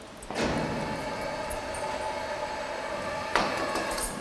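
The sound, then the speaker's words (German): A sliding partition wall in an animal cage is closed: a sustained metallic rumbling roll that starts with a sharp onset, runs steadily for several seconds and ends with a second clattering impact. “Die Zwischenwand wird geschlossen, damit Detlef Liebschwager drüben gefahrlos das Parfum versprühen kann.”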